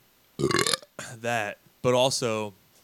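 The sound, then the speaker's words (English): A few loud, throaty burps come from a man drinking beer, each one a drawn-out guttural rumble with short gaps between them. “I think that might be my fifth burp.”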